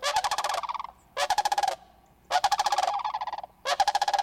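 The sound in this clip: Cranes in a large gathering give four loud, rolling, rattling calls, each lasting about half a second to a second, separated by brief quiet gaps.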